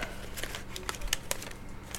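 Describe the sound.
Faint crisp crinkles and rustles of paper being folded into an envelope, with a series of short crackling bursts and no voices.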